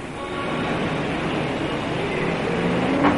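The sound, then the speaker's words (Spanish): A car pulling up and stopping in front of a café in a film scene, heard as a steady low engine and road rumble that holds level and swells slightly near the end. “coche de Lonegan se detiene ante la cafetería frente a la oficina de Twist”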